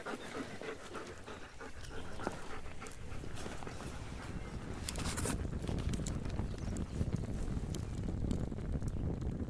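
A dog pants after being told to lie down, its rapid breathy panting continuing throughout and growing slightly louder in the second half.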